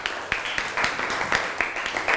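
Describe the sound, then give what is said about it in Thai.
Classmates applaud a fellow student with a short burst of scattered hand claps, uneven and fairly soft, filling a couple of seconds. “แล้วครับปรบมือให้กับเพื่อนหน่อยครับ”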